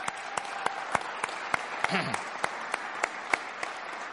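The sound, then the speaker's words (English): Applause from a church audience welcoming a man who recovered from surgery and infection: a faint, dense wash of clapping with sharp, regular claps standing out above it and a brief voice in the middle. “Let's just welcome him and give him a big hand.”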